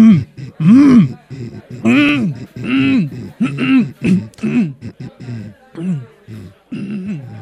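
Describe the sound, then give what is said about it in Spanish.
Someone repeatedly clearing their throat, producing many short, loud, gravelly voiced rasps whose pitch bends up and down, separated by brief pauses. “Aclarando mi garganta. Aclarando mi garganta.”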